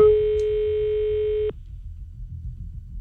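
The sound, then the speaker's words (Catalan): A telephone busy tone sounds after a call hangs up: a single steady electronic tone held for about a second and a half, then cut off abruptly into quiet background. “S'està penjant! A veure, tornem a trucar al pare.”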